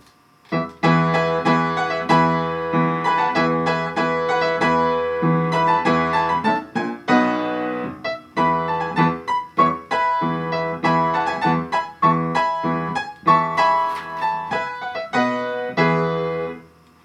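A baroque orchestral ritornello for strings and harpsichord plays alone, lively and loud, in crisp, bouncing rhythmic phrases that repeat with brief pauses between them.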